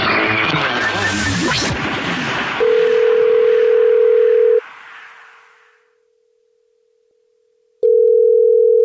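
A telephone ringback tone on an outgoing call back to a caller, following a loud, busy burst of sound: a steady, low hum-like tone, a stretch of silence, then the same tone starting again.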